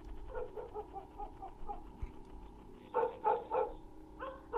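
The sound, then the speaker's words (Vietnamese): A dog barks out on a large road, with repeated nagging barks. Fainter barks come first, then a louder cluster of sharp barks toward the end, all fairly quiet overall. “Bất giác ở ngoài con lộ lớn có tiếng con chó nó sủa nhấm nha nhấm nhằng.”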